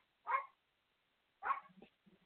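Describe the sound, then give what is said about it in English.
A dog barks twice in two short, mid-pitched bursts about a second apart, each fading quickly, with a faint softer yelp at the end. The barks are quiet and stand alone. “That dog, see, that dog just confirming everything.”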